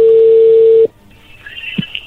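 A steady single-pitched telephone tone holds, then cuts off abruptly as the call connects, leaving faint line noise with a few soft clicks.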